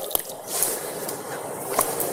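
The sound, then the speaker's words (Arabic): Wet hands rubbed together during ablution with only a little water, giving soft squishing and light slippery friction sounds, with a few small clicks and drips along the way. “لكن السنة الإنسان يدلك، يمر يده على اليد الأخرى. الآن اليد اليسرى نفس الشيء، الماء قليل وهكذا طريقة”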